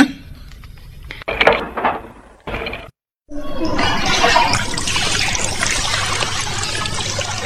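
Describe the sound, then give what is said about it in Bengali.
Water pours and splashes steadily as someone bathes. A few brief knocks and clatters come first, then a short silence, then a continuous rushing stream that carries on to the end. “এক কাজ কর, তোরা আমাকে নিয়ে ভেবে ভেবে মাথা খারাপ করে ফেল, আমি বরং স্নানটা সেরে আসি।”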